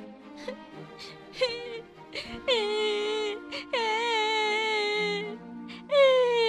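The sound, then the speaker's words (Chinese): A voice acts out a young man crying after slumping to the ground. Broken whimpers give way to long, high, wavering wails that sag in pitch, repeated several times. “年轻人看到这情景，竟然一个瘫软，颓坐在地上哭了起来。”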